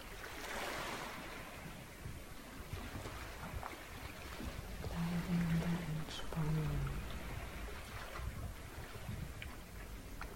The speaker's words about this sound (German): Und ich überlasse dich jetzt den Klängen der Wellen, dem Rauschen des Meeres.